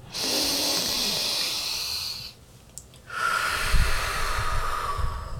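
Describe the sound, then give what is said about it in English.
A big deep breath during a guided breathing exercise: a long, hissy inhale, a brief quiet pause, then a long, audible exhale. “take one more big deep breath with me.”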